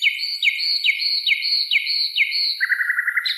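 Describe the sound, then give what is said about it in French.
A nightingale sings cheerfully: six clear, sweeping whistled notes repeated at an even pace, then a rapid, buzzy trill at a lower pitch. The song is fairly loud and stands alone. “La rossignolette hoche la tête et se met à chanter gaiement.”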